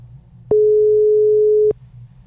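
A single steady telephone tone rings out as a call is placed into a radio phone-in. It holds an even pitch for just over a second, then cuts off abruptly, leaving a low background hum.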